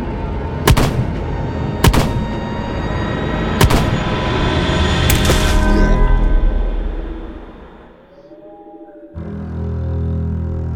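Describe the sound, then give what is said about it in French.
Gunshots as a woman fires all her bullets: four loud, sharp reports at irregular intervals over about five seconds, followed by a low rumbling swell and then a steady, low-pitched sound near the end. “Et elle tire toutes les balles qu'elle a jusqu'à ce qu'il s'approche.”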